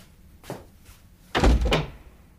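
A door sounds as someone leaves a room: a soft knock comes first, then a single louder, heavy thunk as it shuts.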